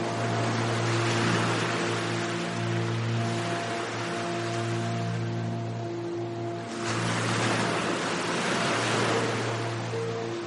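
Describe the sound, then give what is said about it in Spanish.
Ocean waves breaking slowly on a beach shore make a steady, broad wash of surf that swells noticeably about two-thirds of the way through, with a constant low tonal drone beneath. “Las olas rompen lentamente cerca de sus pies.”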